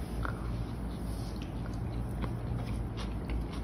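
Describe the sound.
Biting and chewing on slightly spicy food picked up by hand, with quiet, irregular crunching and mouth sounds repeating throughout over a steady background hiss.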